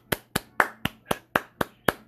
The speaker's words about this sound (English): I want you to put your hands together, perk up, sit up.